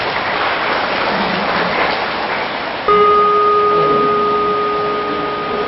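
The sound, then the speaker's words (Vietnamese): A big round of applause from an audience of children, dense, rain-like clapping that stays loud throughout, with a steady electronic tone joining midway. “Nếu được thì các con hãy cho một đàn vỗ tay thật lớn nào.”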